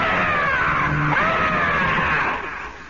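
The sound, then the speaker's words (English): A human voice imitates the shriek of the Jersey Devil: one long, high, strained scream that holds, then dips and trails off at the end. “And then all of a sudden, without any warning, this thing leaves out a shriek. It just goes,”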